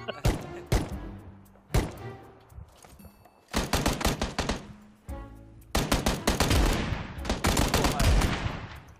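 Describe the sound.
Gunfire in a shootout comes in several loud bursts of rapid, sharp shots, with short pauses between them and the last burst the longest.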